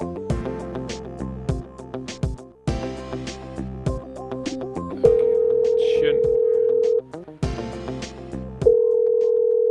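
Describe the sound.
A telephone dial tone as a call is placed, a flat, steady hum that cuts in abruptly twice, separated by louder choppy passages of other sound.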